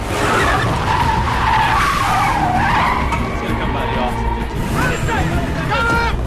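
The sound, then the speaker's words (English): A convoy of vehicles arriving fast in a thriller film scene: loud engine roar with screeching tires throughout, pitched squeals wavering above a steady rumble. “She's about to walk off when she spots Vosen's vehicles approaching.”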